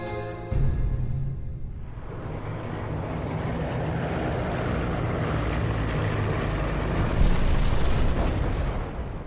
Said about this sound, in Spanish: Los estadounidenses prueban sus armas nucleares en el Pacífico, en el atolón de Bikini,